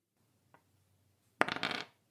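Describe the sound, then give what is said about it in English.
A single die for a tabletop role-playing game is rolled: a faint tick, then a short, brisk rattle of several quick clattering bounces that dies away, alone in near silence. “So I'm rolling one prowess dice.”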